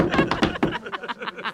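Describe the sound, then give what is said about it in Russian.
Knuckles knock on a table in a quick, uneven run of dull wooden taps, fairly loud and clustered over about a second and a half. “Стучат по столу.”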